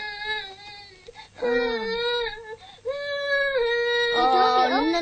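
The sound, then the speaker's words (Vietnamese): A baby cries in a few long, wailing bursts with clear, wavering tones, some pitched high and shrill, separated by short breaths and growing more strained toward the end. “Nín đi chị thương, nín đi. Nín nha cưng, nín nha.”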